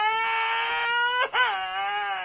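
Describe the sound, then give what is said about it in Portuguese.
An infant boy cries in two long, high wailing sobs separated by a brief catch of breath, loud and tonal with no other sounds. “Não chora não, meu filho”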